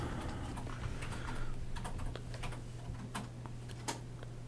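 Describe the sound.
Typing on a computer keyboard: many faint, irregular clicks over a low steady hum, with no voices.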